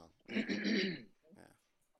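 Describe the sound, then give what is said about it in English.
A person clearing their throat: one voiced, rasping burst followed by a shorter, softer one. “I'm just clearing my throat.”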